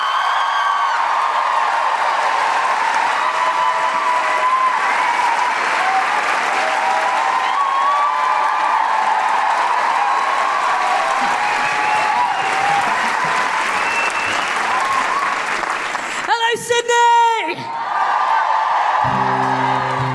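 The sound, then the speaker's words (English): Audience applause at a live Sydney show welcoming a folk singer on stage. Loud, dense clapping and crowd noise hold steady for the whole stretch, with a brief change in texture near the end. “put your hands together and make incredible, welcoming Sydney woohooing guilty feminist noises for the incredible Grace Petrie.”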